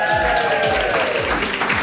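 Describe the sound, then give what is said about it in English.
Audience applause for a quiz competition winner: a steady, dense wash of clapping that holds at an even loudness throughout, with a few soft low thumps underneath. “our winner who deserves a definite Montanotti round of applause”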